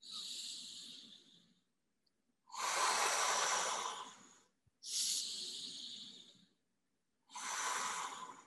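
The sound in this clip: Slow, hissing breaths in and out, shaped to imitate sea waves washing forward and back on a beach: four long, airy swells separated by short silences, the last one cut off.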